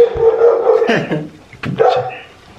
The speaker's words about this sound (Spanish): uy, mis perros